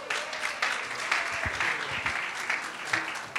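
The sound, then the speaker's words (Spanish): Church audience applauding during an ordination service in McAllen, a dense, continuous patter of many hands clapping at an even level for several seconds. “Un aplauso para Nathaniel.”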